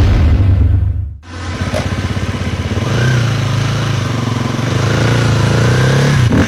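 A motorcycle engine runs with a loud buzzing drone rich in harmonics. It drops away briefly near the start, picks back up and holds steady throughout.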